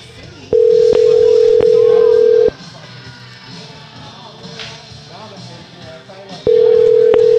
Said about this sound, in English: Does anybody have voicemail anymore? It's a goddamn long ring.